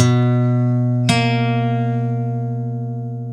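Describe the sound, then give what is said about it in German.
A major seventh interval sounded as two tones: one sustained pitched note rings alone, then a second note enters about a second later and both sustain together, slowly fading. “Super spannendes Intervall, ein großes Intervall mit viel Spannung, genau, das ist die Major 7.”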